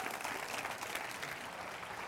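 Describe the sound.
A church audience applauds during a service, a steady, faint wash of clapping that holds evenly throughout without a break.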